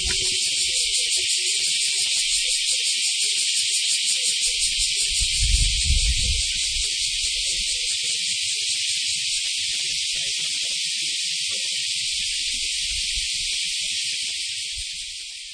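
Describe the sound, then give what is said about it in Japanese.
Cicadas chirping loudly in a parking lot in summer: a shrill, continuous buzzing drone that fills the whole clip. A low rumble swells briefly beneath it midway, and the chorus eases slightly at the very end. “今年の夏このようにセミが強く鳴いているのは初めて聞きました。しばらくセミの声を聞きください。”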